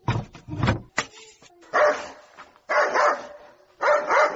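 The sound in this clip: A dog barks loudly in a few separate bursts of sharp barks and yelps, with short quiet pauses between them.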